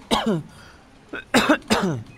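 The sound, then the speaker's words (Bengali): Coughing fit from a man who has choked, several harsh, voiced coughs in quick bursts with short pauses between them, loud and with no talk. “কাট বলার সাথে সাথে খুক খুক করে সে কাশতে শুরু করলো।”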